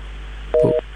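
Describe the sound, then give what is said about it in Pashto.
A phone call is cut off with a short electronic disconnection tone, one steady two-toned beep lasting about a quarter second over a constant low line hum. “ښه، له دوی سره مو اړیکه پرې شوه.”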